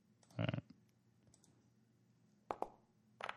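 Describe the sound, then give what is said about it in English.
A single die rolled for a tabletop game to decide who goes first: faint, short clattering clicks in three separate bursts. “one roll, one dice to see who goes first.”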